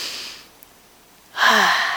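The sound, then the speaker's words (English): A single deep breath drawn in, a loud, breathy rush of air that starts after a stretch of near silence and holds steady to the end. “being aware that that breath did not come from ourselves”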